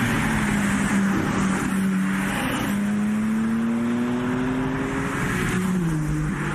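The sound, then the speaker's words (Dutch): A BMW M3 Touring's engine revs at the Goodwood Festival of Speed: a loud, deep, continuous drone whose pitch climbs slowly and steadily, then drops near the end. “M3 Touring, daar hebben ze wel kennis mee kunnen maken op het Goodwood Festival Speed, zoals je al zei, Frank. Laten we even luisteren, want we hebben wat geluid daarvan.”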